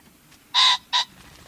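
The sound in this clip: A ring-necked pheasant, a game bird, calls with two loud, harsh, strident notes: a longer first note and a shorter second one after a brief gap. No other sound accompanies them.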